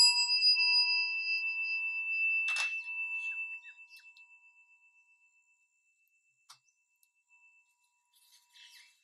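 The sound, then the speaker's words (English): A timer being switched on sounds a clear, high, bell-like tone that holds and then slowly fades over several seconds, followed by a few faint clicks, with no voices. “I'm gonna turn my timer on and we're going to begin.”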